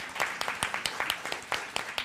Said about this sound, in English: Clap it up for Rachel